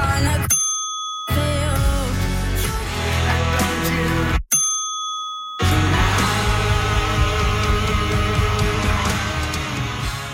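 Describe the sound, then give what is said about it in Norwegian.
Two bright bell dings bleep out a word in a song. The music cuts out briefly around each ping and then resumes at full volume. “I dag så har jeg plinga vekk et ord, I det samme ordet plinga vekk I tre ulike låter som dere skal få høre her.”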